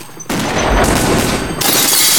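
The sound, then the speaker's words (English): Gunfire blasts into a bag of money in a tense shootout, bullet after bullet. After a short quiet start, the rapid shots merge into a loud, continuous, crackling barrage. “He's firing bullet after bullet into the bag of money.”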